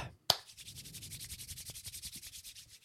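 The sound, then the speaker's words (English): Hands rubbing together, a dry brushing friction repeated in many quick, even strokes at a steady rhythm, following a single sharp click at the start, all fairly soft. “That's the sound of me rubbing my hands together.”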